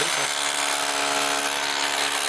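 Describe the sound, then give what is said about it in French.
Steady, loud drilling from a hammer drill, used by a first-time user, runs unbroken through the whole clip. The noisy, grinding roar carries an even, sustained tonal whine. “C'est la première fois que j'utilise une perceuse, enfin je sais pas exactement le nom, mais. C'est une perceuse marteau percuteur.”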